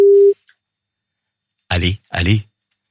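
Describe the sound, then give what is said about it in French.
A telephone tone sounds as a call is placed to a listener in Saint-Victor-sur-Loire. A single short, steady tone ends in a click, and after a pause a voice speaks in two brief bursts. “Décidément, qu'est-ce que ça téléphone aujourd'hui entre Francis Perrin et la valise RTL. Nous appelons...”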